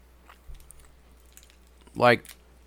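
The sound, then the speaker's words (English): Quiet chewing of a taffy-like chewy candy, with faint sticky clicks and bites, followed by a short, louder hum from the chewer that rises in pitch. “it looks like it should be the consistency of taffy, but you can't chew all the way through it.”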